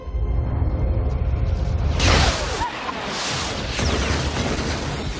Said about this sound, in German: Und dann sprengen riesige, außerirdische Flugscheiben mit ihren Todesstrahlen das Weiße Haus in die Luft.